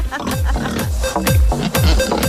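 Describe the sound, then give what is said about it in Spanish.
Pig grunting in a rapid string of low, rough grunts, each dropping in pitch, repeating many times at a quick, uneven rhythm, loud throughout. “Mira, tengo el cerdo de George Clooney aquí. No lo saques de debajo de la mesa, déjalo ahí.”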